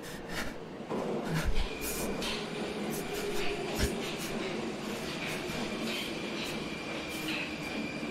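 Steady, low rumble of a subway train fills the whole clip. A thin, high metallic squeal runs along the top, with a couple of brief thumps and no talk.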